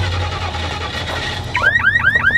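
A car alarm on a broken-down car being jump-started with cables breaks in over a low steady hum, sounding as a loud train of repeated rising whooping sweeps in quick, even rhythm.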